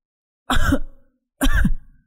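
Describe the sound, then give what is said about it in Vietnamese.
Two separate harsh coughs from someone coughing up blood, each a loud burst that trails off, with silence between them. “Phong ho ra máu. Sau mỗi tiếng ho, máu từ miệng Phong cứ thế bắn xuống nền nhà mỗi lúc một nhiều.”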